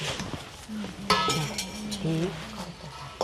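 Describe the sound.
Steamed sticky rice is scooped into cleaned, cut bamboo tubes for khao lam, giving scattered light clinks and scrapes of a utensil while people talk throughout.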